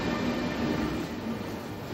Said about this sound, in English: This is the fifth special train from Hungary to the Black Madonna that attracts hundreds of thousands every year from all over the world.